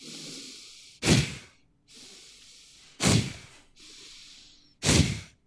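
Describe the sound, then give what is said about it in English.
Three sharp, forceful exhales through the nose, made as a breathing exercise, come at even intervals. Before each one, a softer and longer breathy inhale can be heard. “So you inhale deeply, and then you exhale as quickly as you can through your nose while engaging your core.”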